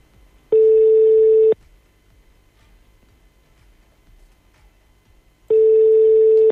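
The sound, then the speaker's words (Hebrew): Telephone tone while a call is placed: two loud, steady, buzzy tones of about one second each, roughly four seconds apart, with near silence between. “ננסה לעשות שיחה בהפתעה.”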